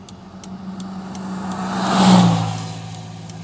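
A truck engine gives a low, humming drone that swells to a peak about two-thirds of the way through, then eases off again, with faint regular ticks above it.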